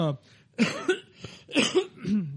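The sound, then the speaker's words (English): A person coughs in a few harsh, throaty bursts in quick succession, some of them with a voiced, rasping edge, at a moderate level. “I'm sorry about that. We don't have a cough button either.”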